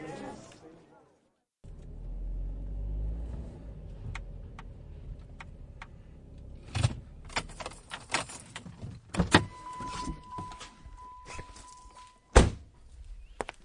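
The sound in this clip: A car door thunks and keys jangle as someone gets ready to drive, with a low engine rumble underneath, scattered sharp clicks and thuds, and a steady electronic tone holding for a few seconds.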